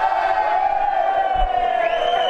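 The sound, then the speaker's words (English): A large crowd at a GameCraft game-making event cheers together for a group photograph, a loud, sustained mass of shouting voices that holds steady throughout. “Gathering a large crowd for a group photograph, the entire GameCraft. We've all worked hard today, we've all created games today, but it's time for the group photo now. Here it goes. 3, 2, 1, cheer!”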